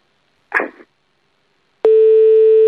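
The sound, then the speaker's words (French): A telephone line tone heard while redialing a call: after a short burst of sound, a loud, steady, unbroken low tone starts and holds without change to the end. “Allez, on rappelle une dernière fois.”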